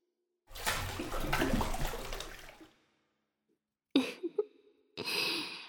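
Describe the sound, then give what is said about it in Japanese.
Bath water surging and spilling over as two people get into a tub together: a long rushing wash of water, a pause, a few short splashes, then another burst of sloshing water. “二人で入るとお湯が溢れちゃうね。”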